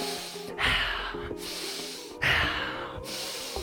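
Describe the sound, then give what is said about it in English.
Deep, fast breathing during a guided breathwork exercise. Forceful inhales and exhales repeat in a quick rhythm over soft, steady background music. “Breathe deeper, breathe faster for the next 15 seconds.”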